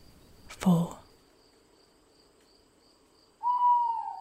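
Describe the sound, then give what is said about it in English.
An owl hoots in a quiet nature setting, a couple of separate calls, one low and brief early on and a steadier, longer hoot at the end, over a faint, continuous insect drone. “The only sound you can hear is the owl and your breath.”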